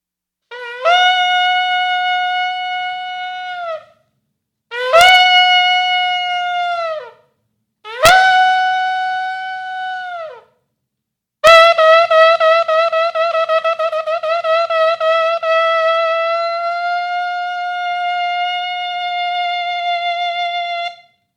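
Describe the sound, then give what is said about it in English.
Trumpet blown in four loud, sustained blasts: three separate held notes of a few seconds each with sharp attacks, then a much longer final note that holds steady to the end, with no voices. “I pray that we'd hear your word as clear as we'll hear the sound of this trumpet.”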